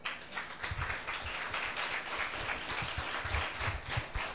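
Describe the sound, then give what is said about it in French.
Applause from a church audience acclaiming Jesus during worship: a steady, fairly faint patter of clapping with scattered low thumps, continuing evenly throughout. “Gloire à Dieu. On va acclamer Jésus.”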